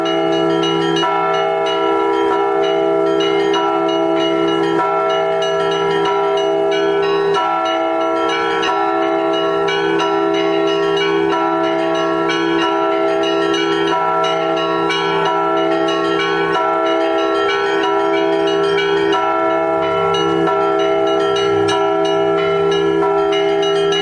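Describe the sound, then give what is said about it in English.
Church bells ring from a Moscow bell tower, loud and continuous. Several bells of different pitches sound together in a rich, sustained peal with overlapping tones that never fall silent. “Huge, impressive bell towers, while others are quite modest, but strong-voiced nonetheless.”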